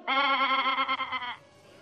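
A goat gives a single loud bleat, a wavering, nasal cry a little over a second long, with no other sound around it.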